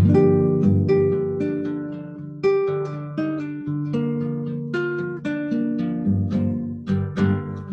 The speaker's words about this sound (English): That gives you the sound of natural minor.